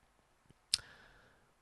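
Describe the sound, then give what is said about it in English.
A tongue click made right into the microphone: one sharp, bright click stands alone, preceded by a faint softer tick and followed by quiet background. “As I click my tongue into the microphone like a true professional would”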